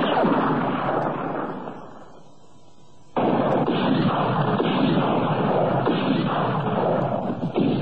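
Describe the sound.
A single bullet is fired at figures across a road in a wartime standoff near a lorry. A dense rumbling roar fades to a lull before a sudden loud blast cuts in, followed by a heavy, sustained roar.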